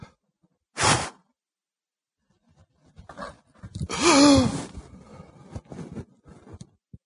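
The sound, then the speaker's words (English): Breath is pushed out audibly while demonstrating the body's breathing cycle: a short, breathy burst of air, then a longer voiced exhale like a sigh or groan, followed by faint rustling. “I can give you an easy example. If I breathe out,”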